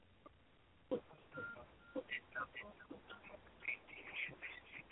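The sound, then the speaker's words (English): Telephone keypad tones as callers press the number 1 on their keypads: short electronic beeps scattered among talk, with people speaking throughout. “We'll see how many people figure out the number 1 on their keypads.”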